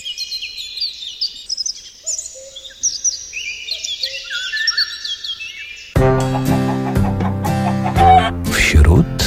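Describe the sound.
Common swifts give shrill, high-pitched screaming calls in rapid trills and descending squeals that overlap for several seconds before music comes in.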